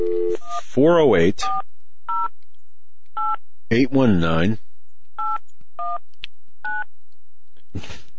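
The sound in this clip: Telephone dialing tones on a speakerphone, many short, clear electronic beeps in an uneven sequence, broken up by longer warbling, voice-like tonal passages.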